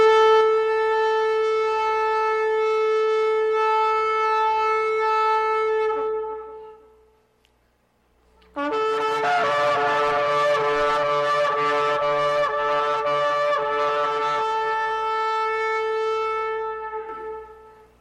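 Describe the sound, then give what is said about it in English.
Traditional ram's horn shofar blasts: a steady, reedy held note, then after a brief silence a longer blast broken by rapid fluttering pulses that fades at the end, alone with no talk. “play back the traditional sound of the shofar to get us in that mood”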